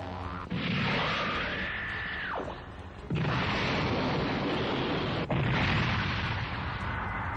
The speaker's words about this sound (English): Big cyclone pulse rifle attack. And, it's, you see the bugs just kind of chittering about still as you power up your cyclone pulse rifle.